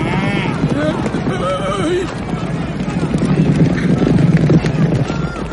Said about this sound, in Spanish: Los toros salen rápidamente del corral. Sancho los ve acercarse y se asusta. La gente corre delante de los toros y ya hay algunas personas en el suelo.